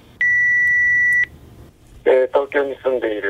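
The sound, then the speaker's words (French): An electronic telephone tone sounds as a single steady, high-pitched beep lasting about a second. A person then begins speaking. “Le téléphone qui sonne.”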